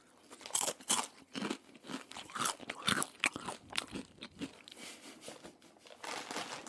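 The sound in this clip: Crunchy chewing of tacos, many crisp, irregular crunches and bites in quick succession, fairly loud with no talking.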